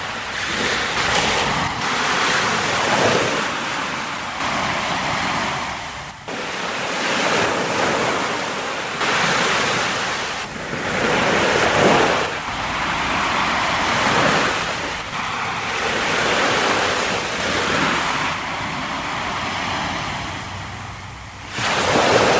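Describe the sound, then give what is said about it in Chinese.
Huge ocean waves crash against the shore in a continuous roar of surf, with repeated surging swells rising and easing over a steady wash of water and wind noise. “涌现出好似高山咁样一个又一个嘅巨浪，潮水撞击响岸边，翻起千尺个浪花。潮水撞击岸边发出嘅声音，”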